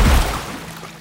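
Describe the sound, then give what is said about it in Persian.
Stones splash into a pond as a mother stone and her pebble children jump into the water. A single heavy, low burst at the start fades quickly into a soft wash. “بچه سنگریزه ها چسبیدن به هم. مامان سنگه با بچه هایش پرید توی آب.”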